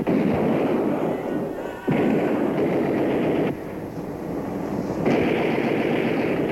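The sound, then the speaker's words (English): Gunfire rattles in a dense, continuous barrage, loud and harsh, running in several sustained stretches whose level shifts abruptly rather than breaking into separate shots. “Do I shoot him? Do I not shoot him? Do I shoot him? Me shoot! Take that!”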